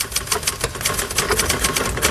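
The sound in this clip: Rapid typing on a typewriter as a final text is typed up from hastily written, crossed-out pages: a dense run of many sharp key clacks in a quick, slightly uneven rhythm.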